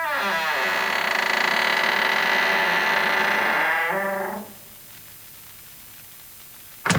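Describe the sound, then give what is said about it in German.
A door creaks in a long, strained groan lasting about four seconds, goes quiet, then shuts with a single sharp click. “Eine Tür fällt knarrend ins Schloss.”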